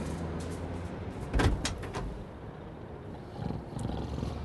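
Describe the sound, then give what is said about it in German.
The door of a delivery van is opened, giving a short clattering burst of latch and panel noise over a low, quiet background hum, with a faint rumble afterwards. “öffnete dann die Tür seines Lieferwagens.”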